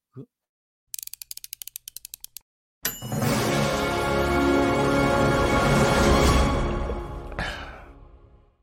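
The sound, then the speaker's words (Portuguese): Intro jingle for a running-shoe review show: a brief blip, then a rapid run of ratchet-like clicks, then a loud, dense sustained burst lasting several seconds that ends with a sweeping swell. “Vamos lá, vamos começar mais um Café Corrida, solta a vinheta”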